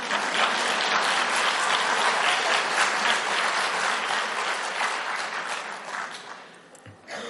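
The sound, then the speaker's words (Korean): An audience at a church gathering applauding with dense, sustained clapping that holds steady and then gradually fades toward the end. “원래는 우리 문화는 박수 안 치는데 저쪽 아프리카 아프리카 선교사님 박수 치니까 여러분 따라 치면 좋네요.”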